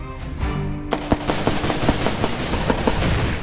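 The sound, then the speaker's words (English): A gunshot in a field sets off an explosion: a sharp blast followed by a long run of crackling, popping bursts, preceded by a brief tonal sound. “Much of that money is going toward TV ads, including this memorable one where Greitens literally causes a field to explode with a gun.”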